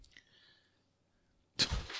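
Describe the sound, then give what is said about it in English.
A cat knocks some things down, making one short clattering thump near the end after almost two seconds of near silence. “That was the cat knocking some stuff down.”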